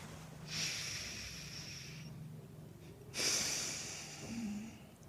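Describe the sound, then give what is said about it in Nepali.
Long slow nasal breathing from alternate nostril practice done at an open window facing east before sunrise: two drawn-out, hissing breaths through the nose, each lasting over a second, fairly loud and steady, with no talking. “लामो सास तान्ने, लामो सास फ्याँक्ने.”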